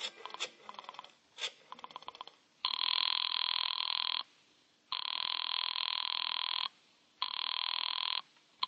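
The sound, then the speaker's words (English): A telephone ringing after a number is dialed: a few clicks come first, then three long, buzzing rings with short silent gaps between them, with no voices. “I dug through the telephone book and I found Dr. Matsonby Forsythe's number and I dialed it.”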